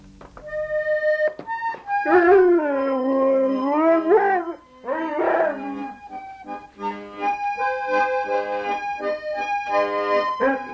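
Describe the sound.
A dog whimpering in its sleep makes drawn-out, whining cries that waver up and down in pitch. Several cries follow one another, with short pauses between them, and each sounds alone and fairly clear.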